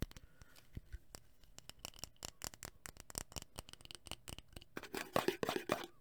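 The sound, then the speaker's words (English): Crisp crackling of a sticker on a candle or lighter, many sharp ticks and rustles in an irregular stream that grows denser and louder toward the end, with no talk. “And you can hear the sticker as well.”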